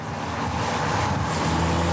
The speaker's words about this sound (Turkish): GTI ile ilk test sürüşüm. Dikkat, bence dikkat, harika. Dikkat, gaza dikkat. Bas.